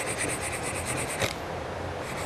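Sandpaper rasps lightly along the top edge of a softwood piece as the corner is rounded off. The hiss is soft and continuous with a fast, even stroke pattern, and one brief knock comes midway.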